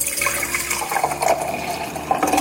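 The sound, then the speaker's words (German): A freshly mixed Aperol drink with ice, sparkling wine and orange juice is poured out in a Salzburg old-town bar, giving a loud, steady gush of splashing liquid without pause for about two seconds. “Eiswürfel, Aperol, Sekt und Orangensaft. So schaut das Ganze nach dem Mixen aus. Mal abfüllen.”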